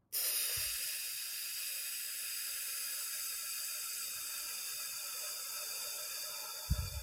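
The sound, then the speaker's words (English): A yogic breath drawn through an open back of the throat makes a steady, loud hiss that holds evenly for about seven seconds, with a soft thump at the start and near the end. “So I'm just going to go through that yogi breath where I open the back of the throat.”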